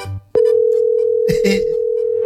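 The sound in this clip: Telephone tone on a call being placed: after a brief click, a single steady mid-pitched tone starts and holds loud and unbroken to the end over faint background noise.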